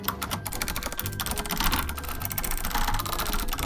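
Rapid typing on a computer keyboard while entering notes into Roll20, a brisk, irregular clatter of many key presses that continues steadily throughout with no voices.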